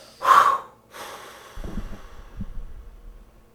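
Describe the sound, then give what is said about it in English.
A deep breath and exhale during a guided relaxation: a sharp, airy intake, then a softer breath and a low, drawn-out breathy release that fades out. “Take a deep breath and exhale.”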